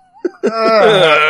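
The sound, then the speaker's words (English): Groaning voices: a short low murmur, a brief pause, then a loud, drawn-out moaning tone that holds steady to the end. “We now pause the podcast for 15 seconds of groaning.”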